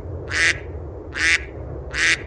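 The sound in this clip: A duck quacks in a video game: three short, bright, nasal quacks, evenly spaced, over a low background hum.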